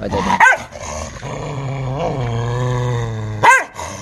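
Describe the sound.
Dogs growl and fight, with a long, low, rumbling growl held between two sharp, loud snarling bursts near the start and the end.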